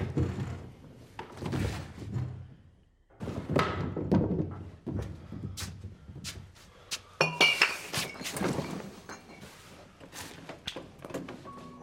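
A glass bottle clinks as it is picked up and handled in a room, amid several dull thunks and knocks. The bursts are irregular and scattered, loud and faint by turns, with no speech.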